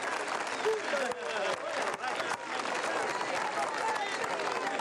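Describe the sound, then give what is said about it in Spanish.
Sustained applause from a crowd at Plaza Bolívar welcomes a union leader, the president of a public-sector workers' federation. The clapping is dense and steady throughout, with crowd voices mixed in. “Vamos a recibir con un fuerte aplauso a un amigo, a un compañero de un líder sindical, al compañero Franklin Rondón, presidente de la Federación de Trabajadores del Sector Público.”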